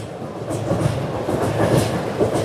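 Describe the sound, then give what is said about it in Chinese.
A train crossing a railway bridge built in 1959, a dense, steady rumble with rhythmic clacking of wheels over the track, continuous and fairly loud throughout, with no talking. “哇，而且现在正好有火车，就在通过咱们1959年建的这座桥啊。”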